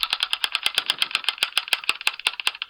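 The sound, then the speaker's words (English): Spinning online random name picker wheel gives a rapid, regular run of bright, dry ticks, many clicks in quick succession with no voices. “I've got a random name picker. Um, I've put our names in four times, so it's like very colourful. And uh, I'll spin it and see who's going first.”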